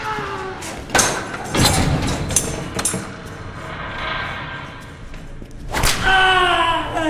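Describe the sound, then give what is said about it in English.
Sharp lashes of a man whipping himself in self-flagellation, a few crisp cracks at irregular intervals over a low, murky background. “A man self-flagellates.”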